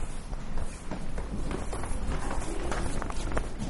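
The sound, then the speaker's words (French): A group of people walks down stairs in a photo exhibition. Many overlapping footsteps and shuffles form a continuous, busy patter throughout. “Alors, j'attends que tout le monde descende, parce que sinon avec le bruit, on ne va pas forcément bien entendre.”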